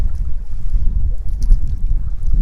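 Wind blowing across a lake jetty, a steady, fairly loud low rumble that buffets continuously for the whole stretch with no voices.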